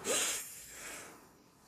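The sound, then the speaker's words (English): A deep breath drawn in through the nose: one airy, hissy inhale that starts strong and gradually thins out over under two seconds, with no talking. “You take a deep breath in through the nose.”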